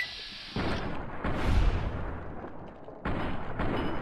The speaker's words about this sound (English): I'm behind him, so I'm going to shoot. Well, no, now he's turned around. Now I'll shoot him in the head.